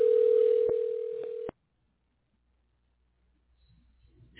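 A telephone dial tone hums as one steady, loud pitch, broken by two faint clicks, then cuts off abruptly and leaves near silence with faint rustling at the end.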